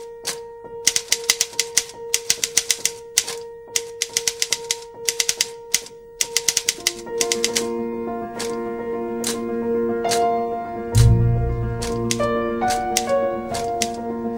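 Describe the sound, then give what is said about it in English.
Rapid clacking on a Royal Number 10 manual typewriter: many sharp, loud keystrokes struck in quick bursts throughout, with sustained tones running underneath. “He starts out trying to type an apology on his Royal Number 10, but loses the run of himself.”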